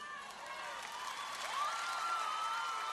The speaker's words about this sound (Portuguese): E a outra salva de palmas.